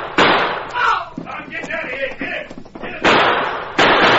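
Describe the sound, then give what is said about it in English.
Revolver gunshots in a Western shootout at the edge of an arroyo: a few loud, sharp blasts, one at the start and two close together near the end, with quieter, busier sounds between them. “At the same time, the Lone Ranger and Tonto reached down and grabbed their guns. Tonto covered Breed, and the masked man swung around as Jake and Tex rolled toward the edge of the arroyo. The Lone Ranger's guns blazed.”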